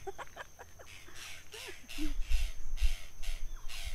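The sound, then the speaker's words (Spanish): Repeated harsh, raspy calls of a tacataca bird come as many evenly spaced bursts. Faint voices and a low rumble sit underneath. “¿Qué pajarito es? Pajarito el tacataca. El tacataca, ¿eh?”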